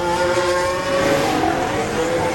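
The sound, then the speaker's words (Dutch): Formula 1 race cars, including McLarens, driving out of the pit lane in a line for the last qualifying run. Their engines drone loudly and continuously with high whining tones that hold steady throughout. “McLaren zit, ja, iedereen in slagvolgorde naar buiten.”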